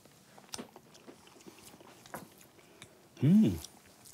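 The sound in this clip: Faint, wet chewing of food made with blood while it is being tasted: soft smacking and clicking mouth sounds, closed by a brief, louder voiced sound near the end.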